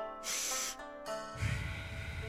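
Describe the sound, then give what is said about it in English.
Two big, sharp sniffs through the nose, the first longer than the second, are followed by a long, softer, breathy exhale, with no speech. “She should have just did two big sniffs through the nose and then a long exhale. No, like this.”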